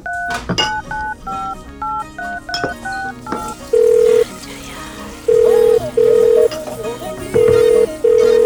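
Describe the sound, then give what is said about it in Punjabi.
Phone dialing tones over music: a quick run of short stepped keypad beeps, then several long, steady, level beeps in a repeating pattern as the call goes through. “ਰੁਕ ਲਾਉਣਾ phone ਉਹਨੂੰ ਮੈਂ।”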